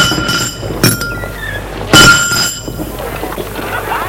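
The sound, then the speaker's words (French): Window glass is broken by two kicks from a heavy shoe. Two sharp impacts with bright glassy ringing land about a second apart over a constant noisy background. “avec son pied et ses grosses chaussures, il donne deux coups pour casser la vitre.”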